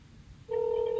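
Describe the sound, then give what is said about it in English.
An American-style phone ringtone: after half a second of faint hiss, a loud, steady electronic tone starts abruptly and holds unbroken to the end. “Blimey, that sounds like an American ringtone. That is weak, isn't it?”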